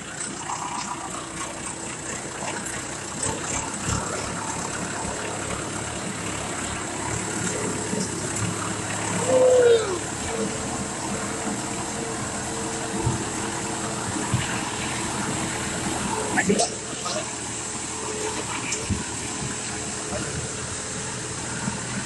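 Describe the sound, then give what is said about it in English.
An engine and rushing water as a vehicle fords the Lothar river stream. A steady gush and churning hum carry on throughout, with a brief louder surge of water near the middle. “अनि Lothar खोला हामी cross गर्दै छौ”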